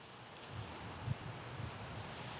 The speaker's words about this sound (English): you can hear those waves crashing on the beach.